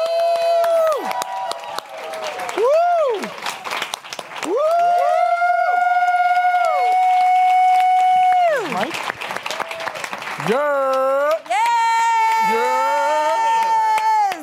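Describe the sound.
An audience applauds and cheers for a guest being introduced at a live event at a Latino film festival in New York. Loud, sustained clapping and cheering fill the whole stretch without pause.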